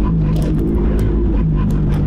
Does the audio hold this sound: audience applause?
no